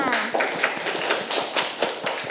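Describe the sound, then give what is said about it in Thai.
Children clapping for a classmate during a lesson: a loose patter of many irregular claps, each a sharp tap. A voice is heard briefly at the start. “เด็กๆปรบมือให้เพื่อนค่ะ”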